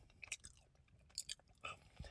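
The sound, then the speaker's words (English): Chewing of a Milky Way chocolate candy bar with caramel, three years old. Soft, sticky crunching and biting come in several irregular bursts with quiet pauses between them, and there is no talk. “I ate the whole Milky Way chocolate candy bar.”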